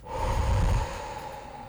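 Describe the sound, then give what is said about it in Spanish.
A deep breath taken during a relaxation exercise: a soft, airy rush of breathing, fuller at first and then settling into a quieter, steady exhale, with no talk. “Es algo así como respirar profundo y exhalar.”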